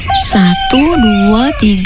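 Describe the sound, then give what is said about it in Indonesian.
Rooster crowing, loud and clear, from a household flock of chickens: a few long tonal calls with sweeping rises and falls that overlap one another across the whole clip. “Kok ayam-ayam kita jadi banyak ya? Perasaan kita cuma punya 6 ekor. Kok jadi kayak ada 10 ekor?”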